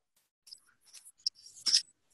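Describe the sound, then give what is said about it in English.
Faint scratching of drawing on paper as a torso is sketched, a few short, soft strokes with small pauses between them. “And so instead of drawing a face, I'm drawing this torso with the energetics that I felt while you're evoking Vegemate.”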